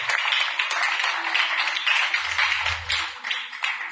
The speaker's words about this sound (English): Clap your two hands for that.